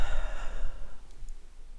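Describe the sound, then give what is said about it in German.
A deep breath in and out during a guided breathing exercise, a soft, airy sigh that is strongest at the start and then fades away. “Und ein drittes und letztes Mal atme ein und atme aus.”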